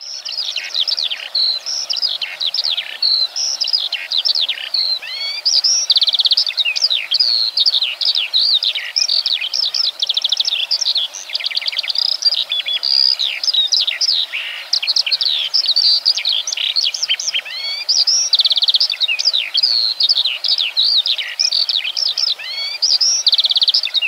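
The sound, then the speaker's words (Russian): Skylark singing: a long, unbroken stream of high, rapid trills and chirping warbles, bright and fairly loud, pouring on without pause for over twenty seconds with no other sounds. “Жаворонок.”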